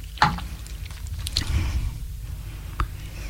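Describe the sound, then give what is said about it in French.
A person takes a little water to drink: a few soft, wet sips and a gulp-like swallow stand out over quiet background noise, with no talking. “Je bois un petit peu d'eau.”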